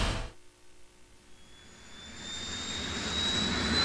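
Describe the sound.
An airplane landing on a runway: a jet engine roar that builds steadily in loudness after a short start, with a thin high whine running through the rushing noise.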